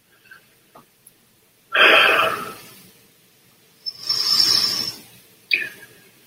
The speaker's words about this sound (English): just focus on my eyes as we go into meditation. Yod and in breath, hey on the out breath. Wah and in breath, hey on the out breath.